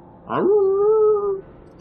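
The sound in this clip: A single wolf howl starts with a breathy, noisy onset, then holds a clear, steady tone for about a second before cutting off, alone and fairly loud.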